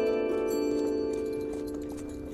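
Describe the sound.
Hooves clip-clop as a horse-drawn cart pulls away in a spoken tabletop role-playing game. The steady, even beat runs under a sustained tonal backing and grows slightly quieter toward the end.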